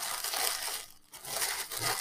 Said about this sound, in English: That sound is the sound of all of the tissue paper that goes involved in the wrapping of presents